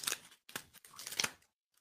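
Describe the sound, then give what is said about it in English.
Cutting and tearing sounds come from opening a thick cardboard package sealed with packing tape, mailed from Stratford, Connecticut. A few short, faint crunchy scraping bursts are separated by brief pauses. “Cardboard and packing tape. I, I admire this. This is the way to do it. I'm going to be able to get it open without damaging things.”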